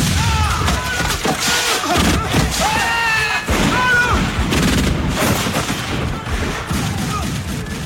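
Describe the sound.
Continuous gunfire in a war as people flee: a dense, loud barrage of many sharp shots and thuds, with voices mixed in.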